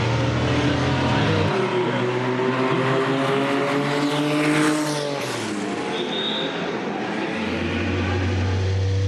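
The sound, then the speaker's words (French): A race car engine roars through a small chicane at the Magny-Cours circuit on a wet, oil-slicked, very slippery track. The loud, continuous engine note drops in pitch, then climbs again. “Et là, on arrive dans la petite chicane qui conditionne la ligne droite des stands du circuit de Magny-Cours.”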